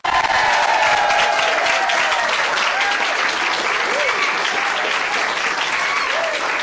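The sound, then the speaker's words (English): Loud applause from an audience in Burnan for over 50 children who have just played the opening piece, the Burnan song. The clapping is dense and even and holds steady without a break from start to finish. “There's over 50 children in front of me playing that opening piece, the Burnan song. It's absolutely magnificent. Come on, let's hear it for the children here again in Burnan.”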